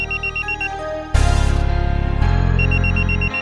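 An electronic telephone ringing tone sounds while a call is being placed. Steady, loud repeating beeps give way to a harsher buzzing tone, with no voices.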